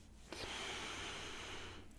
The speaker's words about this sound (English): Let's start by taking a few deep breaths in.